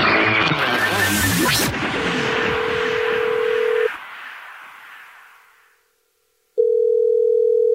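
A telephone dial tone sounds while a call is placed back to someone who texted in: after a dense burst of noise, a steady single tone holds, cuts off, and after a silent pause a louder steady tone returns.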